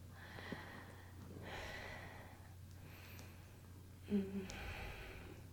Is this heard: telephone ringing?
no

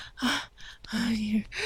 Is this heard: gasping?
yes

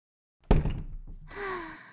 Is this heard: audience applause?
no

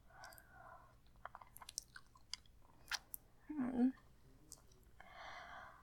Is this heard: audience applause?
no

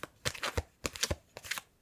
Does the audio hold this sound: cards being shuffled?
yes

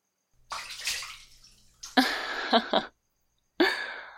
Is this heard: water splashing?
yes

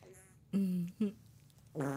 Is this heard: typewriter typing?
no

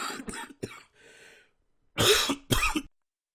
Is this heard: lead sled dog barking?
no

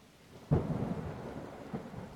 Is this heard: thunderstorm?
yes

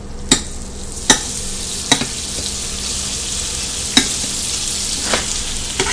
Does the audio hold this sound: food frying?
yes

